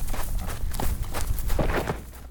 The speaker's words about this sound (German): Sie rennen auf ihn zu und lassen sich rechts und links neben ihm in den Sand plumpsen.